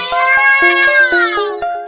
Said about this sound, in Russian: Да это же коты! И мяукают уныло,